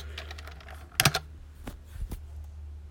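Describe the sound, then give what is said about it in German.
Keystrokes on a computer keyboard as the Command and M keys are pressed: a few sharp, dry clicks, with a tight cluster near the middle and two lighter taps after it, over quiet background hum. “So, hier in dem Projektbereich gibt es auch ein Menü, das erreicht man ebenfalls, wenn man die Befehlstaste und M drückt.”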